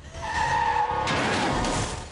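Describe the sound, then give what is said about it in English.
Tires squeal as an SUV skids and swerves on a misty country road at night. A sustained, loud squeal rides over a roaring rush, then breaks midway into broader, harsher noise. “Elena swerves as she hits the figure. The SUV rolls several times and lands upside down.”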